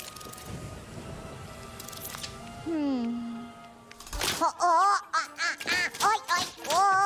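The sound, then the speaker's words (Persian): A goose being fed lets out a run of loud, nasal honking calls in quick succession, following an earlier stretch where people talk. “نه، به عنوان متخصص قاز شناسی ازت مشورت میخوام، چجوری بادارش کنم که غذا بخوره، شنا کنه و پرواز کنه.”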